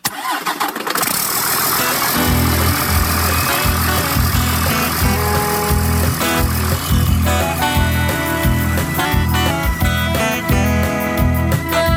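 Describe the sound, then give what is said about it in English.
A vehicle engine driving on a highway, loud throughout, with a rough burst at the start and then a continuous rumbling, pulsing drone with no talk. “I've been driving all night, got 400 miles to go. Got the pedal to the metal”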